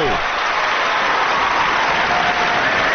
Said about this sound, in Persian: بزن دست قشنگه رو.